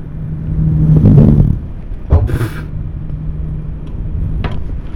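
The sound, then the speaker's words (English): Car engine at about 1500 RPM, heard from the intake side, holds a low steady hum and swells in one brief rev during the first second and a half before settling back, with a sharp knock and some rustling handling noise. “I'm gonna get you on the intake side so you can get some noise.”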